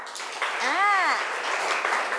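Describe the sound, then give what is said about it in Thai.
A group applauds the student groups in a short burst of clapping that swells and then settles, with a voice briefly rising above it partway through. “ขอปรบมือเป็นกำลังใจให้กับทุกกลุ่มค่ะ”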